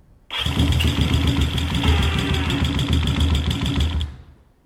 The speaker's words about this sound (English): Turning the key on. Turning the gas on. And I'm going to press the starter button.